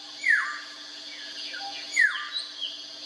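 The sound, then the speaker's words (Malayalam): A golden oriole sings fluty, downward-sliding whistled notes. Two stronger phrases stand out among fainter ones, over a steady high-pitched hum. “കാണുന്ന മാത്രയിൽ തന്നെ മനസ്സിന് സന്തോഷമുളവാക്കുന്ന പക്ഷിയാണ് മഞ്ഞക്കിളി.”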